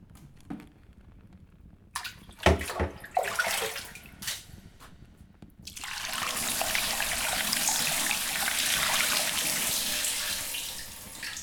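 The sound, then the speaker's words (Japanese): Running water rinses shampoo off hair as a steady soft hiss. It begins partway through, after scattered knocks and handling clatter, and continues to the end. “終わったからシャンプー流す。”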